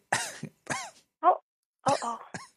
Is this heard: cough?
yes